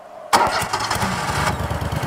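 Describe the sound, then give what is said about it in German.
A Brielmeier mower engine, a special machine for cutting grass under solar modules, starts abruptly after a brief quiet hum and settles straight into a loud, rough, pulsing run. “Heute soll das Gras unter den Modulen geschnitten werden. Sie benutzen dafür diesen speziellen Rasenmäher. Nee, dann mal los, ne? Ja. Würde ich sagen. Kriegen wir heute noch fertig, auf jeden Fall. Ja, dann schmeiß noch mal an die Kiste, ob sich alles gut anhört.”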